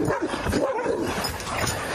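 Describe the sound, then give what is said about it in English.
Dogs bark at a fence in a fairly faint, jumbled burst of quick barks, yips and whimpers, with several overlapping over a steady background. “Dogs are up on the fence.”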